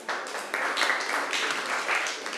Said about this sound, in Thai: นักเรียนเก่งมากปรบมือให้ตัวเองหน่อย